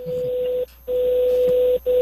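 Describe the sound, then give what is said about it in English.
A bell ringing as a loud, steady, mid-pitched electronic tone that holds, cuts out briefly twice, and resumes each time at the same pitch. “Bell's ringing again.”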